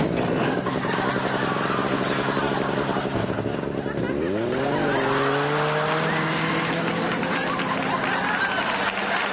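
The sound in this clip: A small motor drives a motorized porta potty, its engine revving with a droning pitch that climbs sharply and then holds steady over loud, continuous background noise.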